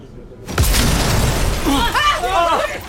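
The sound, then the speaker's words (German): Window glass shatters as an explosion blows out the windows near a burning car in a dramatized scene. A sudden loud burst is followed by sustained crashing and clattering debris, with voices calling out toward the end. “Was war das? Die Fenster sind explodiert!”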